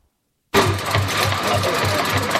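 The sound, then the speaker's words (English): A pedal-powered water filter machine runs: a filter attached to a pedaled bicycle mounted on a metal platform. A steady mechanical whirring with a regular low rhythmic thump starts abruptly after a brief silence and keeps going. “The machine comprises a filter attached to a bicycle mounted on a metal platform. As the bicycle is pedaled, the movement of the wheel draws water into the filter.”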